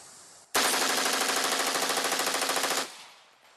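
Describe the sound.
Rapid gunfire from a rifle fitted with a bump stock, one loud continuous rattling burst lasting a little over two seconds that stops abruptly.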